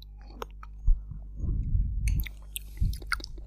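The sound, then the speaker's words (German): Someone drinks a beverage, making soft gulping and swallowing mouth sounds in a few quiet bursts with no talk. “Dann lass uns nochmal trinken”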